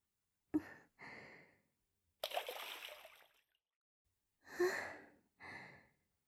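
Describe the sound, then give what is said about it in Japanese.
Hot water is poured over the body before getting into a bath, heard as a few soft splashing bursts of water with breathy pauses between them. “私も掛け湯をしますね。”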